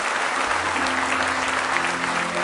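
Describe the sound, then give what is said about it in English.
A church audience claps in praise in the house of worship, a dense and steady burst of applause that holds at an even level throughout. “Give him one more hand clap of praise in the house of the Lord.”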